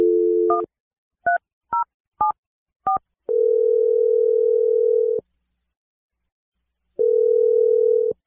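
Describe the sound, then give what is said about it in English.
Telephone number being dialled: a short burst of dial tone, then a few quick keypad beeps of differing pitch, followed by two long, loud ringing tones separated by a silent pause. “I'm going to dial his number right now.”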